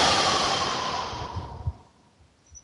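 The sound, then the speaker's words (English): A deep breath, heard as a long, loud, airy exhale that fades over about a second and a half, followed by a few faint, soft breathy sounds. “So take a deep breath.”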